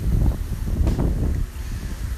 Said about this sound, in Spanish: el viento pegando en las ramas de las palmeras. viento pegando quizás también en el micrófono.